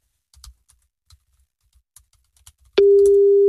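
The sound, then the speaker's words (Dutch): A telephone call is placed to a snack bar: a few soft, scattered clicks like keys being tapped, then a loud, steady mid-pitched line tone starts abruptly and holds to the end. “jij gaat even bellen naar een snackbar.”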